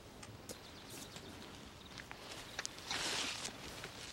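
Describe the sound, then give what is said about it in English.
Soft footsteps of people walking, a series of light, slightly irregular steps with a short rustling burst near the end. “They continue walking.”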